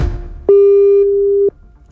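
A telephone call tone after dialing: one steady, flat, mid-pitched note that holds for about a second and then stops, with no talk around it.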